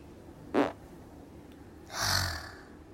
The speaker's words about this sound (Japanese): お腹の調子悪くなってきたんでおなら出します。